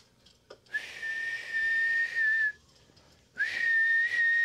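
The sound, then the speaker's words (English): A person lying injured after an accident whistles as hard as possible: two long, shrill, steady whistles, each about two seconds, separated by a short breath and sounding loud against a quiet background. “I remember fucking pushing as hard as I could to try to whistle as hard as I fucking could”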